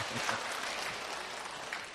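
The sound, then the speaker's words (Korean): Audience applause as church deaconesses are introduced at a gathering, a soft, steady patter of many hands clapping that stays fairly quiet and even for about two seconds. “박수 한번 주시죠.”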